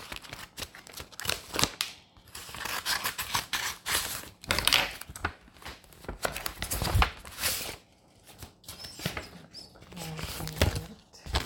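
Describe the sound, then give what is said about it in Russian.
Envelope being opened at a tender session for medical equipment procurement: irregular bursts of crinkling, tearing paper and rustling run through the whole stretch, with short dry rips and handling noises. “Вскрываем конверт.”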